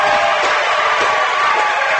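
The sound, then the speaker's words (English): A loud, sustained roar from the crowd at a high school basketball game right after a made three-pointer, a dense, continuous wall of cheering that stays at a steady level throughout. “Back to Daypour for three. Good, as you can tell by the roar of the crowd.”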